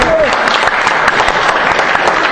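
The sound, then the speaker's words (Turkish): Studio audience applause on a Turkish quiz show: dense, loud clapping that holds steady for the whole stretch with no clear break. “Tamam. Yine de alkışlayalım.”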